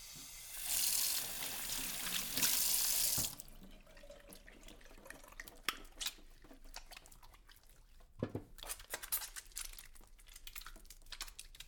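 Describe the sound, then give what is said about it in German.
Running tap water as hands are washed with soap before cooking spaghetti with tomato sauce: a loud, steady gush for a few seconds that then stops, followed by faint rubbing and small clicks. “Vor dem Kochen wasche ich mir gründlich meine Hände mit Seife.”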